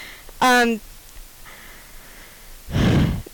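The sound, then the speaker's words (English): Heavy breathing from a person catching their breath: a brief voiced gasp comes first, then a long, loud, breathy exhale near the end, with quiet between them. “Gotta catch my breath.”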